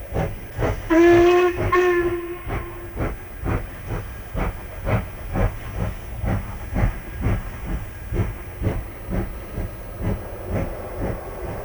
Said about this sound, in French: Le sifflet aigu, grillant dans la nuit, perça l'obscurité.